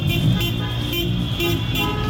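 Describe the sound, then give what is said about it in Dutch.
Car horns honk during a street celebration in Rotterdam, with streets filled by cars. Sustained, overlapping horn tones sound over a constant bed of engine and traffic noise, fairly loud, with no clear talk. “Ook hier op de Westkruiskade wordt er flink getoeterd en is er feestvreugde. De straat wordt bezet door auto's”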